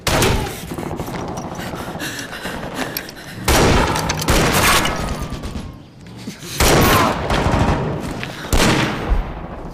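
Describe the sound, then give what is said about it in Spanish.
Machine gun fire rattles through a dramatized battle scene, with dense, continuous bursts of shots and heavier, louder volleys breaking out a few times over a steady background of gunfire. “¡No me quedan balas! ¡Dale a la ametralladora!”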